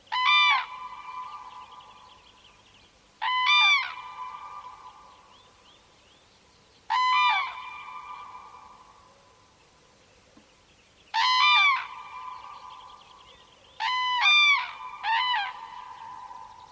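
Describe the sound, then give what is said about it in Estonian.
A pair of common cranes duets in a quiet morning bog, giving loud, harmonic trumpeting calls in several separate bursts. Near-silent gaps fall between the bursts, and the last bursts come closer together. “Sookurgede paari süüd ehk duett hommiku vaikses rabas.”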